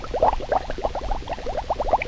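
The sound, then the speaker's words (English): Bubbling sound effect: a rapid, continuous stream of many small watery pops and gurgles, each blip a short rising bloop, steady and fairly loud with no voices. “but you know what was missing from that recording? That's right, bubbles.”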